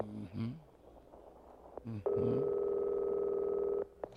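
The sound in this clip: Ringback tone on an outgoing telephone call: one long, steady electronic tone sounds after some brief voice sounds, then cuts off abruptly.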